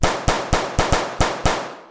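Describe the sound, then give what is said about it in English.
Seven sharp, dry cracks from a .22-caliber pistol fired into wall molding in a hotel room, each a loud snapping report with a short decaying tail, spaced in a quick, slightly uneven rhythm. “He was lying in a hotel room in New Orleans, staring at the ceiling and playing with his .22-caliber pistol. So? He decided to redecorate a little bit by shooting his initials into the molding.”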